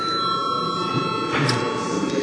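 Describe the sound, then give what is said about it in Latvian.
A bell rings continuously in a parliament chamber to call members to a vote, a sustained, even ringing tone that lasts the whole time without a break. “Lūdzu zvanu.”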